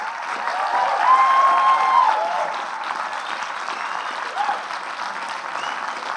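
An audience applauds and cheers as a director and co-writer is welcomed onto the stage at a film magazine panel event. The clapping is dense and steady, peaks early, then eases slightly, with a brief whistle near the start.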